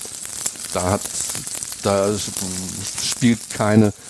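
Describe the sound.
Roast beef sizzles as it is seared in a pan and turned to brown on all sides, a steady frying hiss running under speech throughout.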